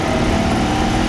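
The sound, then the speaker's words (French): Engine of a red Citroën 2CV car running, a steady, dense mechanical drone with a rough low rumble that holds an even level throughout. “car pour lui, la magie de cette voiture, c'est le bruit de son moteur et aussi l'expérience de conduite.”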